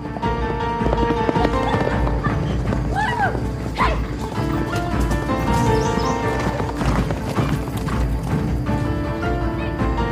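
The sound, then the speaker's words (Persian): Hooves clip-clop steadily as horses are ridden through a forest, a dense, continuous patter of hoofbeats that stays loud and even from start to finish. “سارا و سیاوش در جنگلی اسب سواری میکنن.”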